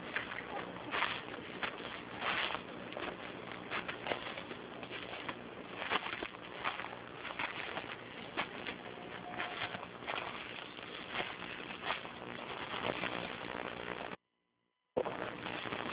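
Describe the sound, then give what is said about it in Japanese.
Footsteps on a mountain trail through mixed woodland, an even, irregular tread of soft crunches that runs throughout, broken by a brief dropout near the end. “少しこう林が開けてきて、雑木林の中を進んでおります。”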